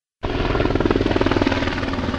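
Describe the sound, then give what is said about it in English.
A Ventura County Air Unit firefighting helicopter swoops low over a hillside near a presidential library in Simi Valley, its loud rotor chopping in a fast, even pulsing beat throughout. “A Ventura County Air Unit helicopter swoops down low over the Ronald Reagan Presidential Library in Simi Valley. As it dips over a hillside, it drops thousands of gallons of water.”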